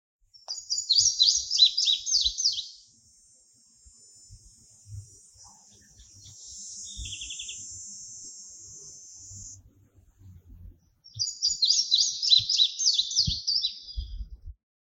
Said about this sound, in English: Palm warbler.